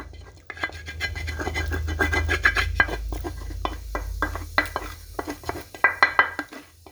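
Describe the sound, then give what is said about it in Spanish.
Scrambled eggs with tomato and onion being served onto a plate, with a utensil scraping and scratching against the pan and dish in a busy run of clinks and rubs that sharpens into brighter metallic scrapes toward the end. “Echamos aquí en nuestro platico nuestros huevitos con tomate y cebolla.”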